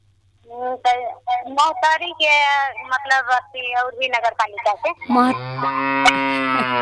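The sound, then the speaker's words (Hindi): A cow at a home where cattle are kept gives one long, sustained, low moo near the end, after several seconds of people talking. “गाय पालने वाली का लगत गाय के आवाज आ रहा बा अच्छा दूरा पर बा बकरी भी बा”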